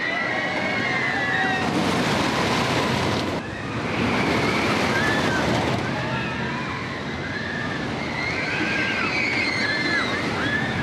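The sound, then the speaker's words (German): A wooden roller coaster ride gives a loud, continuous rushing roar throughout, with a brief dip partway through and faint high cries riding over the rumble. “Eine ganze Stufe mehr bietet schon die Holzachterbahn El Toro, die seit 2009 Fahrspaß bietet, inklusive Geräuschkulisse.”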